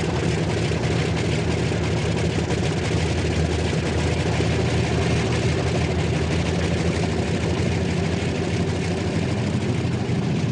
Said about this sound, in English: The first aircraft that is going to lead the very front in the early hours of tomorrow morning is turning onto the end of the tarmac to make its takeoff.